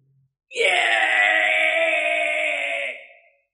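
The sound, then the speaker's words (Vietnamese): A demon's miserable wail rings out, like an ancient ghost screaming in agony, from a black holy cliff among dark mountains: one sustained, harmonic, moaning cry lasting about three seconds at steady loudness before fading away. “Một âm thanh như lệ quỷ vạn năm đang gào thét thê thảm phát ra, chấn động cả thánh nhai màu đen.”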